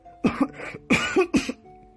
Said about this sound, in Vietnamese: Rốt cuộc tôi đã bị nghẹn mà ho khan dữ dội.